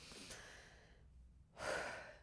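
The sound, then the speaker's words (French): A deep breath drawn in: one long, strong rush of airflow near the end, following a quieter, faintly breathy stretch and a brief near-silent pause. “Allez, on va prendre une grande inspiration.”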